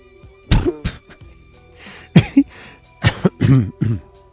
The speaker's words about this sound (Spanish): Tengo una tos rara.